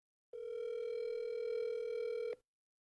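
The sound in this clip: Ringback tone of an outgoing telephone call: one steady, buzzing, mid-low tone lasting about two seconds, then cut off, with no voices.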